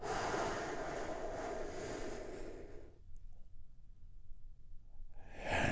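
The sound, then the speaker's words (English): A deep breath is drawn in and slowly let out as a long, soft, airy rush lasting about three seconds. Near quiet follows, then another breath begins at the very end. “we begin our Healing Moment of Zen by taking a big, deep, healing breath together. Here we go.”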